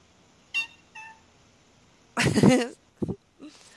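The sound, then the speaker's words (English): A cat meowing: a loud, drawn-out meow with wavering pitch, followed by a few shorter, softer calls, with two faint brief tones sounding beforehand. “My cat will answer for me.”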